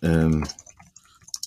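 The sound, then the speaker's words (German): Keyboard typing follows a short burst of voice: a few light, scattered clicks and taps at an uneven rhythm, faint and dry. “Bitte verzeiht, wenn ihr jetzt kurz ein bisschen Getippel hört, aber das ist mega spannend. Ich schreibe mal kurz, dass wir gerade Podcast-Folge aufnehmen”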